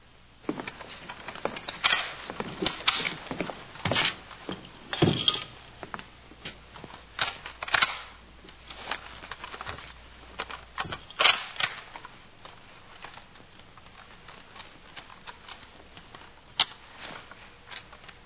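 Many sharp clicks, clacks and scrapes of rifles being stripped down and reassembled blindfolded in a military training drill. The handling noises are irregular and fairly faint, with no voices.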